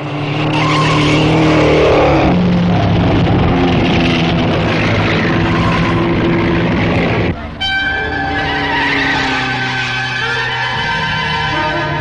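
Delage racing cars at a Grand Prix roar past, a loud continuous engine drone with tire squealing that shifts abruptly in tone partway through.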